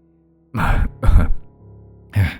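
An older man coughs three times, two rough bursts close together, then a short pause before the third, with no talk around them.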